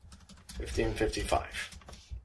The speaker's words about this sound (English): I keep typing these on screen just to make sure that you've got them all.